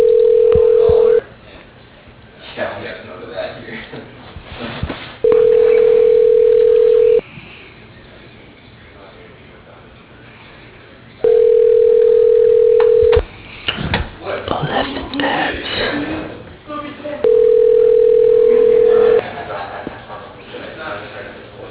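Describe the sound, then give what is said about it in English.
Ringback tones sound while a call is placed to a construction company: four long, steady, mid-pitched ring tones separated by pauses, with people talking in the gaps between them. “Calling Evan Patterson Construction.”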